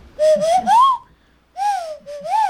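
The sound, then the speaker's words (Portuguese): A bird-call whistle blown through the nose, suited to luring doves, gives breathy, hollow whistled notes. A group of three notes glides upward, then after a pause two more notes follow, each with an airy wheeze. “E o outro, Zabelê, já é mais capcioso, né? Porque você olha isso aqui e fala, mas sopra onde isso aqui, né? E sopra com o nariz.”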